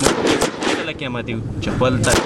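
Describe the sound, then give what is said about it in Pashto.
Gunfire from soldiers' target shooting practice at an army training centre, a few sharp loud bursts at the start and end with a voice talking through the middle. “دغه سرتیری د سلا د بست کولو بیا تر نشان وشتلو پورې دلته په تمرین بوختي.”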